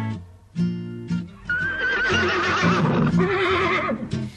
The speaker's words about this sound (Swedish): Ute på landet går hästen och fölet. Hästen och fölet framåt på vägen.